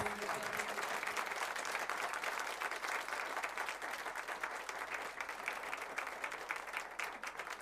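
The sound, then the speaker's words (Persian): Many hands clap densely and steadily, a crowd clapping along to a recited Persian poem praising Haydar. The applause runs loud and unbroken from start to finish, with no clear voice above it. “اینجا باید دست بزنی.”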